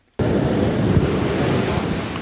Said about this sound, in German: Hunderte Badefreudige, die sich durch den wilden Eisbach im Englischen Garten in München treiben lassen.